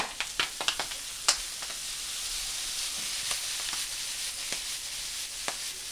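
Squash and beans are reheating in a pan with a steady, bright sizzling hiss. A few sharp crackles and pops stand out early, then the frying settles into an even, fairly quiet sputter with no talk.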